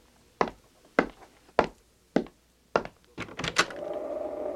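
A door is opened for an arriving visitor. Five evenly spaced heavy thuds come first, then a short cluster of clattering knocks, and a steady hiss continues after them.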